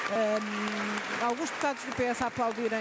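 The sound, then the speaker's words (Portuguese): Members of parliament, including Socialist Party deputies, applaud in the parliament chamber, a low continuous clapping wash that sits beneath a clearly audible speaking voice throughout. “e o PS também aplaudir, alguns deputados do PS a aplaudirem,”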